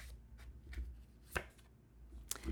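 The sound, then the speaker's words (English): A card is drawn from an oracle card deck: a few faint soft taps and papery clicks of card handling, spaced irregularly, with no voices. “So let me go ahead and pull a card for the highest good and greatest guidance of everyone listening.”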